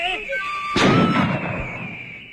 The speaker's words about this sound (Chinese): 还愣着干什么？开枪！